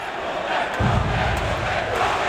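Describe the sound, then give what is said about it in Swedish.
Ice hockey crowd cheering in the stands as HV71 beats reigning champions Skellefteå 4–3 in overtime in the SHL, a loud, sustained roar that swells early and stays strong. “Det blev jubel på läktaren igår”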